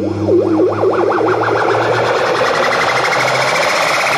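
Synthesizer riser tone made in a studio, with a distorted, wobbling tone whose rapid vibrato-like sweeps climb steadily in pitch over a low droning bed, growing brighter as it goes. No voices.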